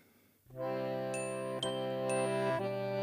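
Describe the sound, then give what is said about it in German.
Distant herd bells ringing, sustained shimmering bell tones layered into a steady chord, with a few soft fresh strikes and no talk. “Ferne Herdenglocken läuten.”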